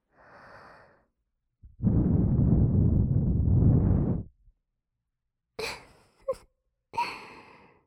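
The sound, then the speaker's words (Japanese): Long, steady breath blown into the listener's ear in an ASMR roleplay, a soft rushing hiss, preceded by a short faint exhale and followed by a few brief breathy puffs. “びっくりさせてしまってごめんなさい。ついつい可愛らしいお耳が見えてしまったものなので、お耳に息を吹きかけたとき、”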